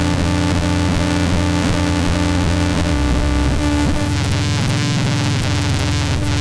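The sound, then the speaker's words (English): Thyratron tubes make loud, chaotic electronic noise: a dense, buzzing wall of stacked tones that shift and warble continuously, turning brighter and hissier partway through. No voices are heard. “There's nothing on the planet that makes noises like these Thyrotrons, and this is actually a pretty mellow night. Let me see if I can make them kind of flip out.”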